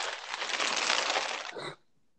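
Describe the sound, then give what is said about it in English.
Crinkling and crumpling as people open bags, a steady dense rustle lasting under two seconds before stopping abruptly into near silence. “Yeah, it sounds like people are opening bags and like crumpling them or something repeatedly.”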